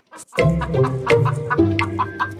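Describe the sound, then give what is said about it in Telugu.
Chickens clucking, a home-kept flock in Egypt raised for young rooster meat and eggs; many overlapping clucks and short calls run busily and fairly loudly throughout after a brief quiet start, with no talking. “ఈజిప్ట్లో యువ కోడి పుంజుల మాంసానికి మార్కెట్లో బలమైన గిరాకీ ఉంది. గుడ్లు పెట్టే పెట్టెలని ఇళ్లలోనే ఉంచుతారు.”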